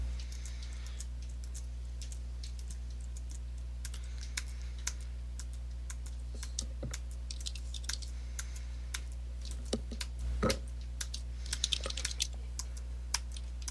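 Rapid typing on a computer keyboard: many quick clicks and key taps, with a few heavier strokes near the end, over a low steady hum.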